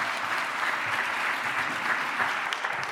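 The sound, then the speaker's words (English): Sustained audience applause welcoming two guests onto a stage, a dense, even wash of many hands clapping at steady loudness throughout. “Please put your hands together to welcome them on stage”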